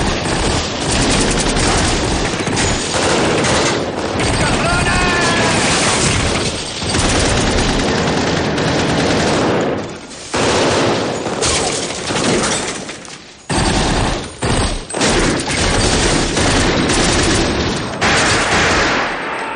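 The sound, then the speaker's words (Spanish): Heavy gunfire erupts in a crossfire shootout inside a garage, with rapid automatic bursts and many loud shots overlapping almost continuously. Only a few brief gaps break the dense barrage. “Dentro hay un fuego cruzado.”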